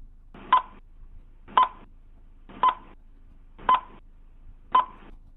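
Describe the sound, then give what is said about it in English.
A spoiler countdown sound effect of five electronic beeps, each with a click, at one steady pitch and evenly spaced about a second apart. “add the worst sound effect in podcast history, the spoiler countdown, for like 6 seconds.”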